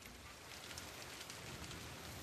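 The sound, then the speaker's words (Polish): A heavy rain downpour in bad weather at a national park makes a dense, steady hiss of countless drops that stays even from start to finish, with no voices. “Ale ulewa.”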